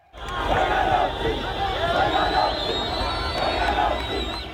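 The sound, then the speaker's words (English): Arsenal fans cheering in the streets of Addis Ababa, Ethiopia, after stopping traffic and climbing onto cars: a loud, sustained mass of voices chanting and shouting, swelling and easing in waves. “fans in Addis Ababa, Ethiopia, stopped traffic to cheer in the streets and on top of cars.”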